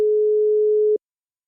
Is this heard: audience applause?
no